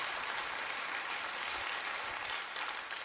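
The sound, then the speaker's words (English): Church audience applauding to welcome guests: continuous, dense clapping at a quiet, even level that eases slightly near the end. “Why don't we just put our hands together right now and welcome all of our guests to church today?”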